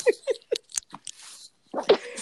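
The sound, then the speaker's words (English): A person sneezes, a sharp burst of breath among a few short vocal sounds and breathy puffs, faint and uneven with gaps between them. “Excuse me. Oh, excuse me. I sneeze.”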